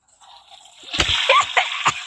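A toilet flushes in a video game as a rushing, watery swoosh that builds from a faint hiss into louder sloshing, with a few sharp splashy bursts.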